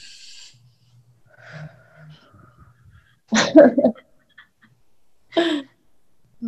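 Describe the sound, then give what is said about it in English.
Several people take a deep breath together on a count, heard as a loud, breathy rush lasting under a second, then a shorter breathy burst after a pause, with faint voices earlier. “Let's take a deep breath together, yeah? On three. Inhale.”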